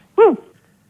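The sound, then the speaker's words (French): One short dog yelp heard over a phone line, rising and then falling in pitch, with quiet line noise before and after. “Je crois qu'ils ont un chien”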